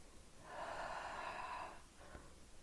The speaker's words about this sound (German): Atme mal dreimal tief durch die Nase ein und durch den Mund wieder aus.